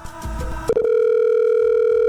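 An outgoing phone call rings with a steady, single-pitched tone that starts after a muddled burst of sound and a click and then holds unbroken to the end.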